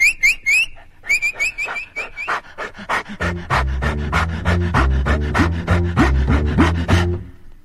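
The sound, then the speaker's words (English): Rapid, steady panting from a Great Dane puppy: many quick, breathy pulses in an even rhythm that runs through the whole stretch without a pause and grows fuller and louder partway through. “you have to go and leap over the fence and frighten the life out of our poor little Great Dane puppy.”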